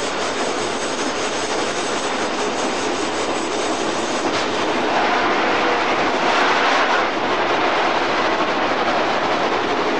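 Train braking as it approaches a station and a junction signal: a loud, steady rolling roar with broad hiss that swells slightly midway and holds without a break.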